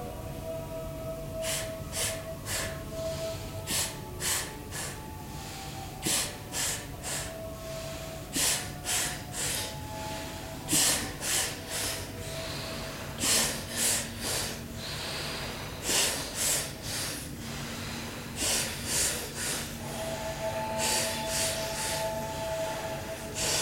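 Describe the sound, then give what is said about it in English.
Rapid, forceful nasal exhalations of an energizing pranayama breathing exercise, many sharp puffs in quick rhythmic runs separated by brief pauses, heard alone without speech. “I'm going to show you a breath now that's a pranayama that gives you a phenomenal amount of energy.”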